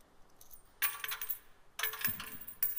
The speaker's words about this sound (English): they would bring their money bag with them, and they would pull it out, and it might sound something like this.